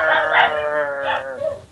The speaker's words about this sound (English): That's my dog.